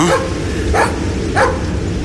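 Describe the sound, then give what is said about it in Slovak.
A dog barks three times in the dark and fog somewhere below, in short, loud, evenly spaced yelps over a steady rumbling background. “Tam dolu je dajaký pes a možno nie je sám.”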